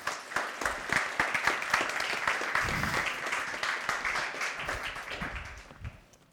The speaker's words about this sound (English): And so it is my delight to introduce you to him at this time. So can we give him a warm welcome?